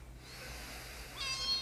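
A kitten's meow rises near the end, faint and brief, over a low steady hum.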